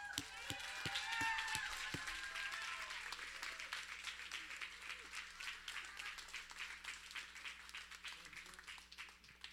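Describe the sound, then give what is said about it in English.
A church audience stands and applauds to welcome a 14-year-old speaker, a sustained, dense patter of many hands clapping at steady volume, with a few voices heard near the start. “So this morning, if you will stand to your feet and get your hands together and get ready to welcome Isaiah Mayers.”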